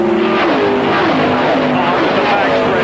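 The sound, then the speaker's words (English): A stock race car's engine roars loud and steady as it takes corner one at Indianapolis and heads onto the short chute, its pitch sagging slightly through the turn, while a commentator talks over it. “He brings the car through corner number one, okay, and onto the short chute.”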